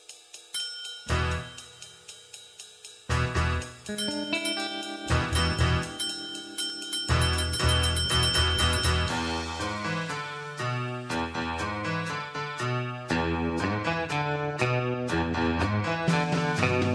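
A film soundtrack song plays with chiming, bell-like tones and plucked notes, stopping and starting briefly before it builds into fuller layered instrumentation with a steady beat.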